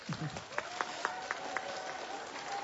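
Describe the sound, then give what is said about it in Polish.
Faint applause at an outdoor children's rosary gathering in the rain, honouring children in Zurich, heard as a run of evenly spaced claps over a soft steady tone. “Więc pozdrawiamy bardzo serdecznie Szwajcarię, Zurych i wszystkie dzieci, które się z nami łączą duchowo. Brawa dla nich!”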